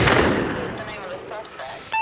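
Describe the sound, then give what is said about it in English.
Gunfire in a police shots-fired scene set over music: a loud, booming blast at the start that rumbles and fades over about a second and a half, then a short, sharp burst at the very end. “4240, I've got shots fired here. Send me another unit.”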